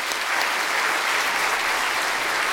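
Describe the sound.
An audience applauds to welcome a speaker at an event, with dense, even clapping that stays loud and unbroken throughout.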